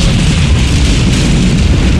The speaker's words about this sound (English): has exploded. Good thing, too.